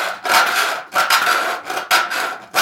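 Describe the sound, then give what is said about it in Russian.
A metal file sharpens the teeth of a hand saw, working tooth by tooth to restore the edges. It makes several short, scratchy rasping strokes in an even back-and-forth rhythm. “Переставляю палец на следующий зуб, который выходит влево. Вставляю напильник и опять.”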